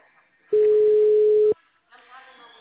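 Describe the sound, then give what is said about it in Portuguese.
On a telephone call that goes unanswered, a single steady mid-pitched beep sounds for about a second, then a voice follows. “Nem ligando, ela não atende.”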